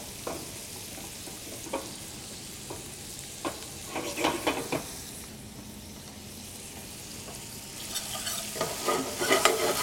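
Bacon frying in a pan while baked beans are made, a steady sizzle scattered with sharp crackles and pops that grow busier and louder toward the end. No one speaks.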